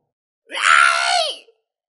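A single long scream rings out alone, a loud, strained, harmonic cry held for about a second before its pitch slides down and cuts off.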